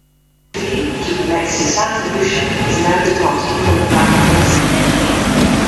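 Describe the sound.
A high-speed train at a railway station. A loud, steady rumble with a humming whine starts abruptly and continues without a break to the end.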